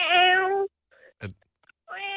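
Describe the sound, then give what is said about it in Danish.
Person imitating a kitten meowing, with two drawn-out, high, tonal mews, one at the start and one at the end, and a few short faint vocal sounds in the quiet gap between them. “Ikke en kat, er det? En lille katkilling. En killing.”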